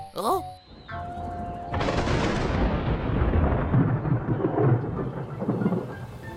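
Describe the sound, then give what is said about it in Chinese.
Heavy rain pours down after a short opening sound, building into a dense, loud, steady hiss and roar with low rumbling underneath that continues to the end. “啊，下雨啦！这雨也太大了吧！”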